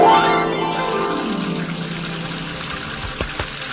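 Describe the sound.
Water sloshing as a man washes clothes by hand: a loud gush at the start that gradually fades into a thin trickle, with a couple of small splashes near the end.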